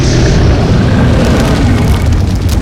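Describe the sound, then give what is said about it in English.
A steady, loud roaring rush of magical freezing blue fire strikes spatulas held up as shields, a dense whooshing blast that continues without a break from start to finish. “The blue fire is bouncing off the shields.”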